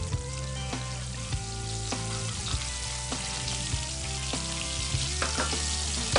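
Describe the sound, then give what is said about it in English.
Oysters fry in hot oil with a steady, bright sizzle, broken by a few sharp pops that crackle out at irregular moments. “Now that's what you wanna hear. That's what I'm talking about. That popping, the oysters are cooking great.”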